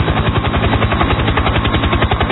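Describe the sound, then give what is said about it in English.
A helicopter fitted with skis runs its engine and rotor but fails to lift off. A loud, rapid, even chopping thud continues throughout. “This goddamn helicopter will not go.”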